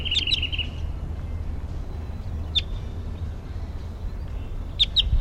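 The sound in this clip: A wild bird chitters in a few brief, high-pitched bursts of rapid notes separated by pauses, faint over a steady low background rumble.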